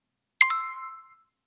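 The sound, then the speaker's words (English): A bright chime from the Babbel language app rings out alone: a quick double strike followed by a clear ringing tone that fades within less than a second. “That is the sound of you learning a new language with Babbel.”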